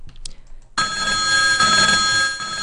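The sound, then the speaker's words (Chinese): A phone call is being placed. After a few faint clicks, a steady electronic ringing tone starts and holds at an even level without pause. “我给李哥打个电话。”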